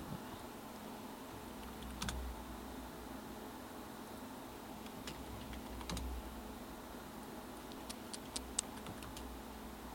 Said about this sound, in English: You guys get to hear me type while I look for a song.